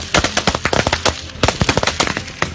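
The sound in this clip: Rapid automatic gunfire from a United Wa State Army training exercise: many loud, sharp cracks in quick, uneven bursts with barely any pause.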